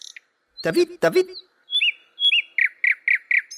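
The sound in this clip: A song thrush sings two harsh, rasping notes and then a run of clear, high whistled notes, ending with four matching notes repeated in a quick, even series.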